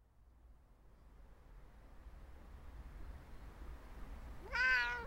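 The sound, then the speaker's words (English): A house cat in Tokyo gives one short, clear meow near the end, rising out of a steady low hiss that fills the rest of the quiet stretch. “We are in Tokyo to interview a house cat that has spent more than 4 months of lockdown with her owner.”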